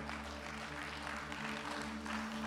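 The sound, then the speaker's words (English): A church audience applauding: a faint, steady patter of clapping over a constant low hum. “Let's give a hand to the Lord.”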